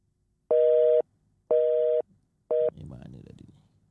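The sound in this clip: Telephone call tones sound while a call is placed: three loud, steady mid-pitched beeps at regular one-second intervals, the third cut short, followed by faint muffled noise.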